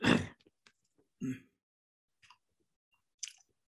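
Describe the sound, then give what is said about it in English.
Coughing and throat clearing from a dry throat: a few short, faint, rough bursts, the first the strongest, separated by quiet gaps with small scattered clicks. “I'm coughing a little suddenly.”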